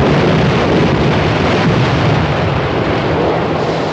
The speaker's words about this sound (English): A huge explosion showers the boat in spray.